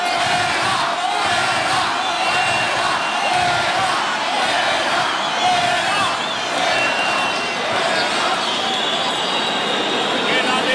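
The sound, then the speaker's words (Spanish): A bullfight crowd protesting loudly to the presidency: a sustained, dense roar of massed shouting voices that stays strong and steady throughout. “Pero ahora el público protesta a la presidencia.”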